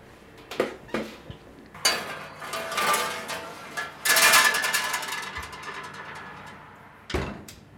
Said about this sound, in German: dann können wir den Strudel jetzt reintun in den Ofen.